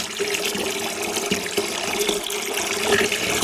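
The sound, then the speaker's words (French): Water pours from a tap into a basin for an indoor tide experiment, a steady rushing, splashing flow that holds at an even level throughout. “Tiens, on va par exemple remplir une bassine d'eau.”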